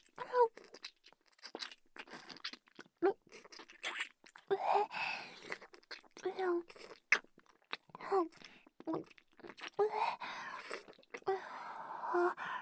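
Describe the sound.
Someone chews a hard, slightly sweet food, producing many wet clicks and crunches that fall between and beneath stretches of their talking.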